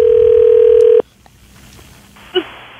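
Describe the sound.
Telephone keypad dialing for a call to a Sports Expert store gives a loud, steady electronic tone lasting about a second, then near silence broken by one short beep.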